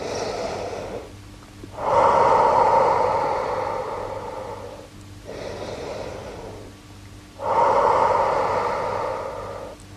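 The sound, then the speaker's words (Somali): Slow, deep human breathing, with long airy breaths in and out that alternate between louder and softer phases across roughly two full cycles. No voices are heard. “Si buuxdo u neefso.”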